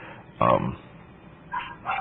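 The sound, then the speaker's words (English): A dog barks a few times, first one sharp, louder bark and then softer, muffled yips, with a thin, band-limited sound over a low background hum. “why does she have the dog barking? Is that just typical?”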